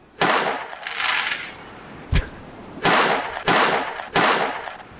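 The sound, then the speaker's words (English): Fireworks go off in a handful of loud explosive bursts, each with a crackling, hissing tail. One sharper crack lands in the middle. No voices are heard. “Sounds like fireworks. Yeah, well done.”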